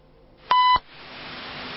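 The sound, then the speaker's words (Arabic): A single steady electronic beep marks a phone call being cut off during a live call-in. It lasts about a quarter second and is followed by a steady line hiss. “قطع الاتصال. وبانقطاع هذا الاتصال”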